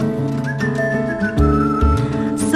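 A person whistles a tune over a musical backing, with clear high sustained notes and slight slides between them, carried over steady bass and rhythm.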